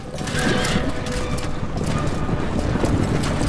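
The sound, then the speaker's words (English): Horses ridden by a group of men into a village make a dense, continuous clatter and rumble of hooves and movement with no separate beats standing out. “The sheriff, Gisborne and their men ride into Loxley.”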